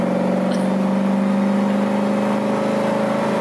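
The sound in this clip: A car engine plays from a video, humming loud and steady at one held RPM with an unchanging, droning pitch throughout.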